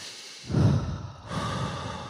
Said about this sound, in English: let's take a breath. Let's take a breath.